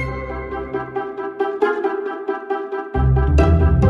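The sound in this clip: Instrumental stock library music plays alone: a run of short, bouncy notes over a low bass that drops out midway, then returns loud and deep for the final stretch.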